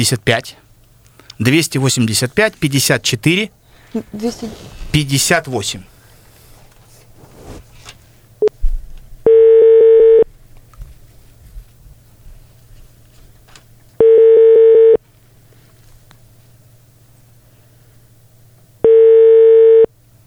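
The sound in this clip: People talk over a phone call to the city health department hotline, then the line gives three long, steady beeps spaced several seconds apart with quiet gaps between them, and no one answers.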